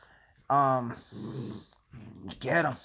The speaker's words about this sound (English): if you hear some noise in the background, I'm dog sitting right now.